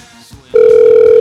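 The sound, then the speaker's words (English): A telephone tone on a call to a paid phone line: after a brief quiet click, a loud, steady, unbroken beep cuts in halfway through and holds to the end. “So let's call a sex line. We got a certain 85 cents a minute service here.”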